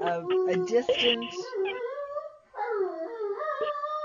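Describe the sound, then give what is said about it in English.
A pet dog howls in long, wavering, yodel-like wails, the pitch sliding up and down. A short break falls just before the midpoint, then the howling resumes at a steady level. “That's my dog wailing.”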